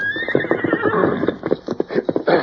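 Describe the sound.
A horse whinnies loudly in a long, shrill cry while its hooves clip-clop in a steady rhythm beneath it.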